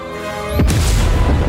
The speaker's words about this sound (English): Tiny combustions grow into a great explosion, blowing away the logo and reveals the title, Beavis and Butthead Do the Universe.